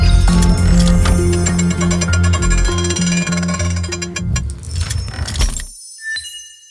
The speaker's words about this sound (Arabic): نطلب من الشباب من الرجي انه يفتحوا الخزنة